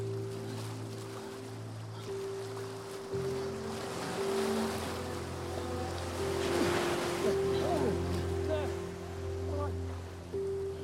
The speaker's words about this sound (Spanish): Llega hasta el agua y un pequeño oleaje rompe en su cara.